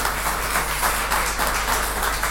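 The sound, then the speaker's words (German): Audience applause welcoming a speaker at a conference talk: a continuous wash of clapping at a steady, fairly loud level with gentle swells, no voices standing out. “Ich würde sagen, großer Applaus für Margot, bitte.”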